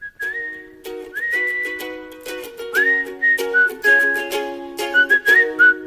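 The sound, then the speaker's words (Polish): A person whistles a lively tune with sliding, bending notes, loud and continuous over a steady lower backing. “Szanowny panie, ale w teatrze to nie gwiżdżemy.”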